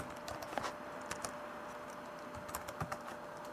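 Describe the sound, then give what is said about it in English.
Keystrokes on a computer keyboard as a password is typed into a web page's password field: a string of faint, irregular clicks, alone with no talk. “So it says email edit, and I'm going to type in my email address now. So I just wrote in my email address. I'm going to hit tab. Tab, password, password, edit. Okay, so there's my password field. I'm going to type in my password now.”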